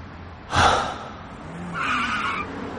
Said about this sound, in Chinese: 孟昭踩了刹车停在十字路口